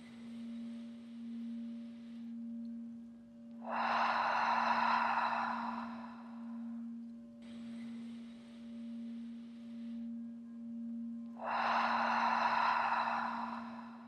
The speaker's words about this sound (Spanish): Inhala y exhala profundo.